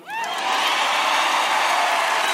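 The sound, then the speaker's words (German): A crowd gives a standing ovation with cheering at the Grammys for a Latin trap artist winning Album of the Year. A few quick whoops and whistles rise at the start, then a loud, sustained roar of cheers and applause takes over. “Standing Ovation für den Latin Trap Superstar und eine Dankesrede, die mehr war als höflicher Grammy-Jubel.”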